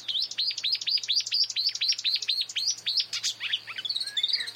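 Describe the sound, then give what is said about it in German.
A marsh warbler sings by a lakeside in a fast run of repeated, high, sharp chirping notes, then breaks into looser, varied warbled phrases toward the end. “Der Sumpfrohrsänger ist im Vordergrund, man hört aber im Hintergrund eine Amsel, man hört irgendwie eine Meise, man hört irgendwas.”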